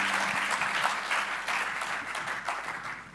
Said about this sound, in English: Would you give him a big, big, big welcome as he comes to minister the Word today?